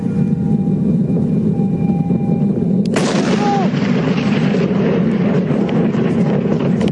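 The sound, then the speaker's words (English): A meteor explodes over Queensland. One sudden, sharp boom breaks in about midway through a steady, loud low rumble that carries on afterward. “This is the sound of the meteor that exploded over Queensland. I want you to hear how terrifying this was.”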